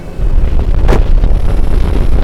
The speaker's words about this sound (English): With a rush of thrust from the main rocket booster, Commander Carl Jackson was thrown back into his seat.